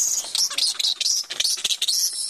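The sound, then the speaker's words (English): Excited chirping of dozens of flying foxes hanging from the ceiling of a walk-in enclosure at a bat hospital, waiting for lunch; shrill, dense, overlapping calls run continuously without pause. “Dozens of flying foxes are waiting impatiently for their lunch. The furry animals hang at the ceiling of the walk-in enclosure, chirping excitedly and looking at us with their huge eyes.”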